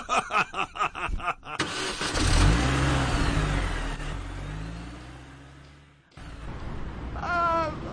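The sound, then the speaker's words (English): A car engine sounds while driving, opening with several rhythmic pulses before swelling into a loud, steady roar whose tone climbs and then eases; after a brief drop the engine noise resumes, and a voice is briefly heard near the end. “Haven't we been driving a long time”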